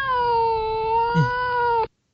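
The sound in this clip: A cat gives one long, drawn-out meow at a steady pitch. The call is loud and sustained for nearly two seconds, then cuts off abruptly into silence.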